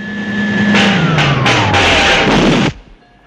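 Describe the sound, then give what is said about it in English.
A huge generator in fog whines loudly while its pitch slides steadily downward. Several harsh crackling bursts of sparks break in before it cuts out abruptly, leaving only a faint low hum. “As the fog licks round the generator, sparks fly and it cuts out.”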